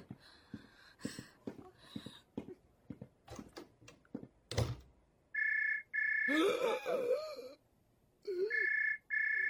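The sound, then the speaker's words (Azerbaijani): A telephone ringing in a Turkish-language drama, heard as a few bursts of steady electronic ring tone in the second half. Scattered clicks and knocks come before the rings, and a voice briefly overlaps them. “Zeng açtılar.”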